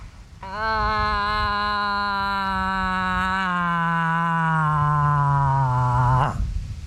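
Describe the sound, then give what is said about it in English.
A human voice imitates a cow moose's bawling call: one long, nasal, harmonic-rich moan lasting about six seconds that sags slowly in pitch and ends in a short upward break, with no other sounds around it. “And so she'll do the bawling cow call in hopes that a more worthy suitor might hear her plea and respond accordingly. And it sounds something like this.”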